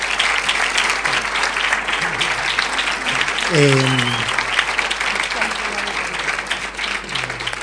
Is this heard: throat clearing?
no

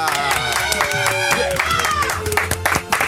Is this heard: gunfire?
no

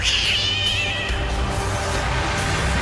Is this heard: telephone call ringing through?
no

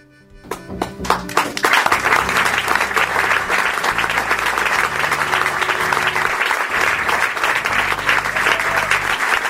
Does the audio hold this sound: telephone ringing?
no

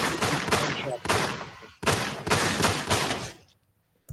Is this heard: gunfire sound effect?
yes

